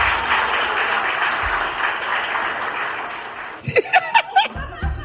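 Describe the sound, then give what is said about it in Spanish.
A live comedy-show audience applauds in a dense, steady patter of clapping that holds for several seconds, then thins out into a few scattered claps mixed with brief voices. “Un aplauso.”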